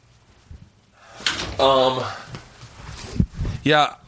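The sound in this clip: A door is shut, heard as a few dull thumps and knocks scattered among brief voices.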